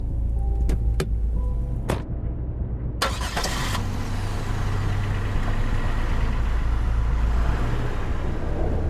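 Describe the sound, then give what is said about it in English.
A car engine starts in a video game: a few sharp clicks, then a loud burst as it cranks, settling into a steady low engine rumble. “You hop into Billy McConnell's car. Start. And there's no keys because I have them with me.”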